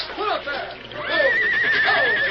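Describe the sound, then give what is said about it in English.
Horses of a wagon team whinny as a river current carries them off, with a few shrill neighs and one long, high, wavering cry. “Pull up there. Oh, Tom, there goes another. The horses. The current's carrying them away from the wagon.”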